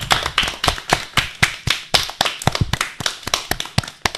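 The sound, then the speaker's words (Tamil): Applause from an audience for a student's speech on the value of the palm tree: many sharp, distinct hand claps in a quick, fairly even rhythm that continue steadily through the whole stretch, with no voices. “பனைமரத்தின் சிறப்பை சிறப்பாக எடுத்து கூறிய மாணவி சாருமதி அவர்களுக்கு பலத்த கரவொளி எழுப்பி நமது பாராட்டுக்களை தெரிவிப்போம்.”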